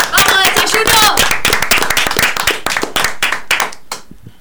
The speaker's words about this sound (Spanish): Vamos a aplaudirnos a nosotros mismos.